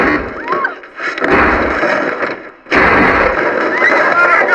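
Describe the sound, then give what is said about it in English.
Gunfire erupts in heavy, loud bursts of harsh noise, running in two long stretches separated by a brief drop, with the second stretch starting abruptly and staying loud. “Who's shooting?”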